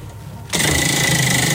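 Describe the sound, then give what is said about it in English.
A prize wheel spinning: after a brief quieter moment, a loud, continuous whirring rattle starts abruptly and holds steady to the end. “It's spinning wheel. It's spinning way more than it did the other day.”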